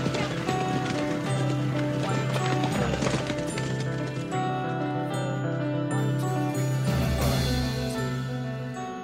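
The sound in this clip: Galloping hooves of a champion racehorse filly beat in a quick, steady rhythm, mixed with sustained musical tones that run throughout and ease off slightly near the end.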